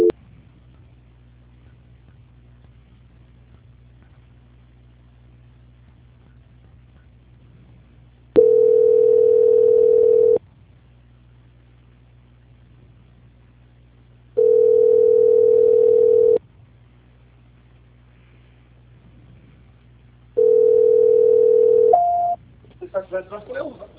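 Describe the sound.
Three telephone line tones play while a call is transferred, each a steady, bright tone lasting about two seconds. Long gaps of low line hum separate them, and a brief voice is heard right at the end.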